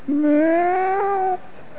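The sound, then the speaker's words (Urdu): A voice imitating a weak, sick cat ill with typhoid and fever gives one drawn-out meow at a steady, slightly wavering pitch, fairly loud and heard alone. “بلی کو typhoid تھی, بخار کمزور, بہت آہستہ سے بلی نے کہا”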